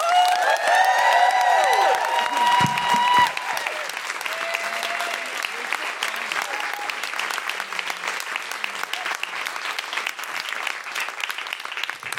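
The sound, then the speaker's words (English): An audience claps and cheers for comedian Sindhu Vee. Loud applause with high whoops and shouts opens the stretch, then eases into steadier, quieter clapping that continues to the end. “Put your hands together and make excited noises of feminist delight for Sindhu Vee.”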